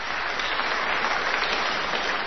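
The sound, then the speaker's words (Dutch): Loud applause from a crowd at an event honouring young people: dense, steady clapping that holds an even level throughout. “Een luid applaus.”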